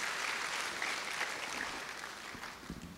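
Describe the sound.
Audience applause welcoming a pastor who is a conference speaker: full, even clapping that holds steady, then thins near the end into a few separate claps.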